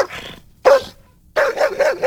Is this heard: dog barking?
yes